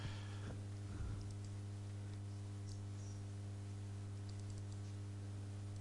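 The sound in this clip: Keyboard typing as a word is entered into a document: a few faint, sparse key clicks over a loud, steady mains hum.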